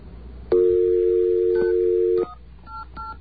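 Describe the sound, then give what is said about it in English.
A telephone number is dialed on a phone: one long, steady two-note tone sounds, then stops, and a few short keypad beeps follow. “Oh, you need a 9 there. I thought I dialed a 9. Really? Okay, hang on. Let's try that one more time.”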